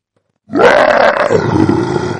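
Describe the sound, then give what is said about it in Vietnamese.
A six-legged beast lets out an excited roar, a loud, guttural growl that bursts in after a short silence and holds for nearly two seconds with a rough, throaty tone. “Lục túc đao trì cũng phát ra một tiếng gầm hưng phấn.”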